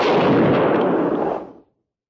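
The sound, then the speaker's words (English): A loud volley of rifle fire, fired on command, hits as a single combined blast. Its broad rumble fades out within about a second and a half, followed by silence. “Ready. Aim. Fire.”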